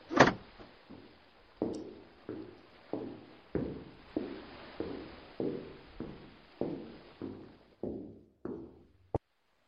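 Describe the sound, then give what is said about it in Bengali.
Footsteps walk away in a steady rhythm, many dull, evenly spaced thuds on board a ship, ending with one sharp click of a key locking the cabin door. “Captain Scarrow শুনতে পেলেন ওদের চলে যাওয়ার এবং দরজার চাবি দেওয়ার আওয়াজ”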